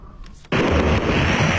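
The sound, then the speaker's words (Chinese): Fireworks at a show in Tayuanzhuang village, Zhengding, Hebei: after a quiet moment, a sudden loud blast launches into a dense, sustained roar of bursts that stays loud to the end. “一场烟花秀把河北正定塔园庄的人气再次推高。”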